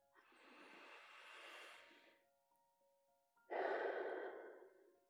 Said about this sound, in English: take three deep breaths. Here we go. Here's one.